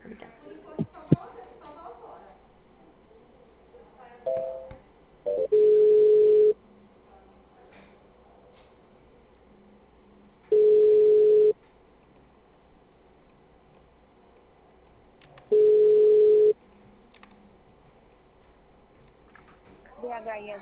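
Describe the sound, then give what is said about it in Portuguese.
A telephone tone plays while a call is being transferred: three steady, mid-pitched beeps, each about a second long and spaced evenly several seconds apart, with quiet line noise between; people talk briefly at the start and end. “Oi, só um minutinho, estou tentando transferir sua ligação.”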